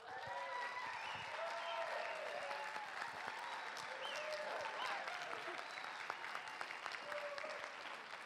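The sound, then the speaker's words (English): Sustained applause rises from an audience giving a standing ovation to a speaker introduced at a church community gathering. The clapping is dense and continuous and stays at an even level throughout. “How often do you get a standing ovation before you've even spoken?”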